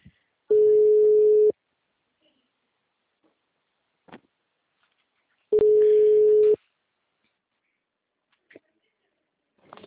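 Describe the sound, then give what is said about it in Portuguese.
Telephone ringing tone on an outgoing call: two steady, mid-pitched one-second tones separated by a long silent gap, with a few faint clicks in between. “Tô ligando, tá?”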